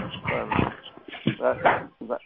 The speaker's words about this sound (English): Use your phone when you're not talking, so we don't hear your dog in the background or whatever that is.